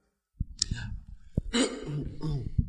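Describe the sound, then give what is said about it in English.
Dry coughing from a person with a dry throat: a couple of harsh, raspy bursts mixed with short voiced sounds. “Because you keep coughing.”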